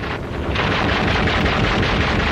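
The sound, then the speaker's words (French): Gunfire directed at a patrol at the front, a dense, continuous crackling roar with no separate shots standing out, loud and steady throughout. “Notre reporter, parti avec une patrouille, essuie le feu des Vietnamiens.”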